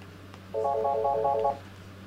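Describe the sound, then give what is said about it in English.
A telephone rings for an incoming call: one short burst of warbling electronic ringing, clear and moderately loud, over a faint steady hum. “Oh, we've got a caller.”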